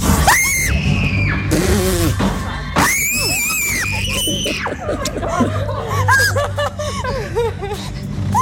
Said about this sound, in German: Wir durften unter anderem die neue Maze Jason Universe einmal durchlaufen. Und die klingt in etwa so.